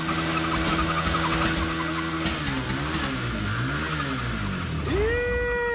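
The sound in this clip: An engine under repair revs up and down several times in a loud, steady drone with wavering pitch, then climbs sharply to a higher, sustained pitch near the end.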